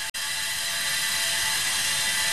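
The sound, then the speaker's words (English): A sprinkler sprays stream water fed through a pipe into freezing air to build an ice tower. A dense, steady hiss carries a metallic humming ring, continuous after a brief dropout at the start. “Water just flows through a pipe from the stream and sprays out of a sprinkler into the air. It makes this metallic hum.”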